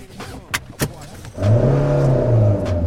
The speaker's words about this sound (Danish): Min bror sætter bilen i gang, og vi kører igennem gaderne